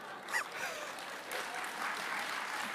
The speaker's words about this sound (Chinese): 这些掌声都是发自肺腑的了。